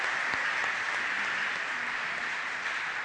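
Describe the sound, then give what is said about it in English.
Audience applause for a choir at a church service: a steady, dense clatter of many hands clapping, holding at an even loudness for about three seconds with no voices standing out. “Let's give this wonderful choir another hand, would you? They did a wonderful job.”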